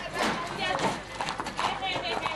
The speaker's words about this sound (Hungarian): azért folyamatosan érkeznek a lovak és a lovasok a hétvégi vágtára.